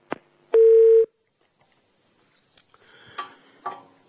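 Telephone line tones as another phone call connects: a sharp click, then one steady half-second tone, followed by faint line noise with a few soft clicks and crackles.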